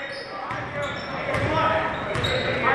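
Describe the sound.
Basketball dribbled on a court during a game, the ball bouncing a few times beneath a steady, noisy background of voices.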